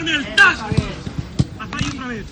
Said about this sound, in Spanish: Tiene que gustarme cómo suena el balón. Tiene que gustarme cómo suena el balón. Me tiene que gustar, a ver cómo suena. Que suene, tac.